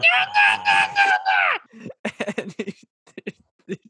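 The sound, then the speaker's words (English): A voice imitates Paper Jam Dipper's messed-up cartoon noise: a warbling, wavering, strained wail that breaks into rapid, choppy, sputtering bursts. “there's a paper jam in the copier machine. And what comes out is Paper Jam Dipper, which is the best character because it's just this messed up Dipper. And it goes,”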